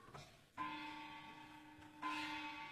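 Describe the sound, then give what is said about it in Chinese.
A bell is struck twice in a Beijing stage drama. Each quiet strike leaves a sustained, humming tone that slowly decays. No voices are heard. “钟响了”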